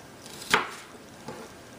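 A knife cuts through a piece of food to halve it, giving one sharp, crisp chop followed by a softer second cut. A faint, steady background hiss runs throughout.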